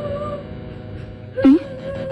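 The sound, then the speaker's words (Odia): A son crying in distress, heard as one brief, high, wavering whimpering sob that rises out of a steady tonal drone in the background. “କିଏ କାନ୍ଦୁଛି? କାହାର ଏ କଣ୍ଠସ୍ୱର?”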